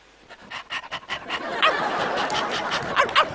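A man imitates a dog for a comedy sketch about Pavlov's conditioning experiment. He makes quick, rhythmic panting breaths that grow into busier, yelping, bark-like huffs, all voiced by a person rather than an animal.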